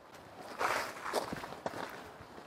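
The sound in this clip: Footsteps of people walking toward a large white-and-blue building full of small shops. The steps are soft and irregular and stay faint, with no talk over them.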